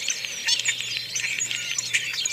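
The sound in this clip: European starling calls: a dense, continuous run of high chirps, clicks and whistles, fairly loud and busy throughout, over a steady low hum.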